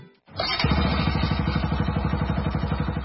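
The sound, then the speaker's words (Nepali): An old Bajaj Pulsar motorcycle engine catches after a short silence and settles into a steady, rhythmic thumping run with a clattery, even pulse that stays loud to the end. “पुरानो Pulsar बाइकमा पनि यति राम्रो pickup र mileage कसरी कहाँ गएर बनायौ?”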